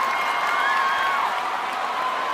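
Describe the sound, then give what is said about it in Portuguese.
Live audience applause and cheering at the close of a show in Brazil, a steady, dense wash of clapping and crowd noise that holds evenly throughout. “uma salva de palmas aí, gente.”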